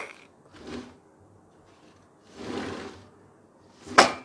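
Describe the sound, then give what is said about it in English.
A window slides open or shut in three separate scraping, clunking bursts spread over a few seconds, the last one sharpest and loudest, with quiet in between. “Yeah, done. I closed the window.”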